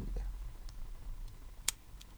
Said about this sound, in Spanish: Un encendedor también. A ver, me presté el encendedor. Es un encendedor común y corriente. Enciéndale.